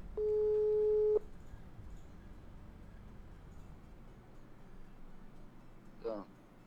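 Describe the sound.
A single steady telephone tone sounds for about a second while a listener's number is dialed, followed by a quiet, hissing line with a brief faint blip near the end.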